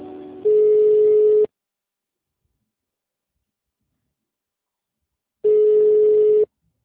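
Telephone line tones sound during a call transfer: two long, steady mid-pitched beeps, each about a second long, separated by several seconds of silence, with a brief soft line noise just before the first.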